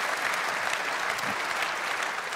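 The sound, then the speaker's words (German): Steady applause from an audience during a political speech, a dense, even wash of clapping that holds at the same loudness for the whole stretch. “ich bedanke mich für den Applaus.”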